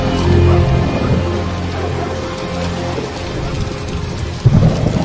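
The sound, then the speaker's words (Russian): Rain falls steadily with low rolling thunder as a thunderstorm begins over a market square, and a sudden loud thunder crack breaks through near the end. “Начинается гроза. Торговая площадь пустеет. Люди прячутся от первых капель дождя.”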